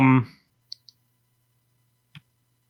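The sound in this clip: Three sharp, faint clicks from clicking and typing while writing down a title, coming after a brief burst of speech, with two clicks close together and a third well after.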